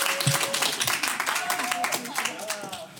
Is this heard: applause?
yes